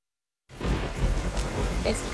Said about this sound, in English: It's pouring rain.